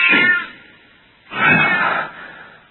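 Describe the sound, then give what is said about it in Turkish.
A cat yowls after being stepped on in the dark: two loud, strained meows, the second longer and fuller, with no talk. “Kediye basmışım.”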